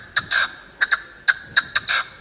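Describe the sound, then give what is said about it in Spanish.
A partridge calls in a run of about eight sharp notes, with short clipped chirps alternating with longer, rasping ones in an uneven rhythm. The calls come through clearly over a faint background hiss. “Es una perdiz.”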